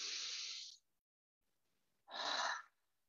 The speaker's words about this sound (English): Now, take a breath with me. Take a deep breath.